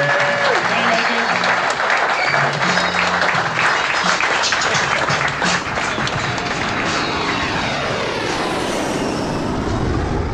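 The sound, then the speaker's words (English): Audience applause at the close of a live comedy show, sustained, dense clapping lasting about ten seconds, with voices speaking over it. “One more time, big round of applause for Luke Heaney.”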